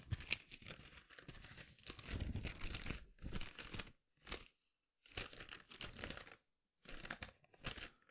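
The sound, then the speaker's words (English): Crinkling and rustling of paper notes being shuffled through, arriving in several irregular bursts separated by short silences, fairly faint and with no talking. “Let me look through my notes here.”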